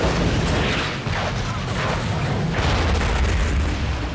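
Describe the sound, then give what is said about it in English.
A massive explosion as a truck covered in zombies blows up. A dense, booming roar fills the whole stretch at a steady, loud level with no clear separate blasts. “The truck, covered in zombies, explodes.”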